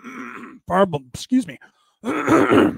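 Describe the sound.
Throat clearing of phlegm: a few short, rough grunting vocal bursts, then a longer, harsh, raspy clearing sound at the end, with no talk in between.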